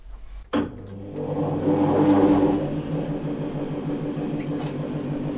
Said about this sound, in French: Donc par le meulage, on va, on va recréer un biseau ici et après passer à différents stades de polissage. Alors, donc circuit d'eau.